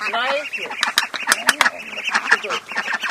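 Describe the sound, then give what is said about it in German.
Indian runner ducks quacking, a flock of about twenty that has just hatched chicks; many busy, overlapping nasal quacks in an irregular stream, fairly loud throughout. “Julia de Vries kümmert sich auch um die 20 indischen Laufenten. Die haben gerade wieder Küken bekommen.”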